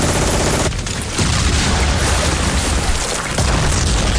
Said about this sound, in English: I just had to let you hear some of that gunfire.